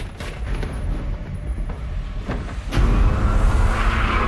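A car accelerates through traffic, its engine a rumbling drone until a sharp bang partway through, after which the roar grows louder and fuller to the end.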